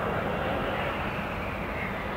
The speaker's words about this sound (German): das sogenannte Touch and Go, bei dem er den Jet kurz landet und sofort wieder durchstartet